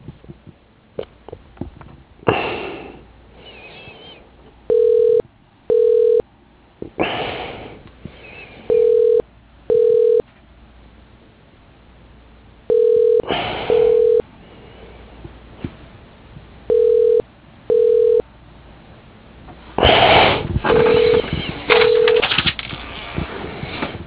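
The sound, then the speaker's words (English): Telephone ringback tone as a call is transferred to an office extension: five double rings at steady intervals, thin and band-limited like a phone line, with short bursts of noisy sound between the ring pairs. “Let me transfer you to his extension”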